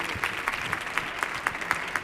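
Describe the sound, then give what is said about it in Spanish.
Audience applause during a programme: faint, evenly spaced claps in a steady rhythm over a low background wash, with no voices standing out. “Otro aplauso para Maui de Cabi y para Chema Tawa, claro.”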